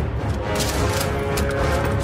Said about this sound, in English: I'll say the shooting looks a lot better than it did. I want to see more of it, but already this is looking better than what was shown previously.